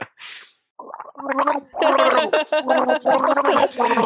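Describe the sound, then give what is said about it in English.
A wet, gargling voice belongs to the cartoon villain Hydro-Man. Speech is bubbled and gurgled throughout in uneven phrases, and a short breathy hiss comes before it. “Yeah, I don't know if it maybe his power, he can't keep himself together. He's constantly gargling.”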